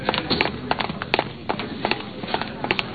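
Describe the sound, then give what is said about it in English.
Running footsteps of a man fleeing through gate 4 near airfield hangars: many quick, irregular thuds and scuffs, moderately loud and alone, with no voices. “He's running through the gate.”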